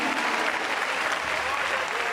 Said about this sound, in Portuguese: Essa igreja dá uma salva de palmas ou não dá? Dá! Palmas para Jesus, aleluia!